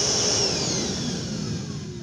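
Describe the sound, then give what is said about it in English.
A wet and dry shop vac motor whines loudly with a high, airy roar, its pitch sagging slightly as it runs. “It's actually not a toolbox at all. This is a shop vac.”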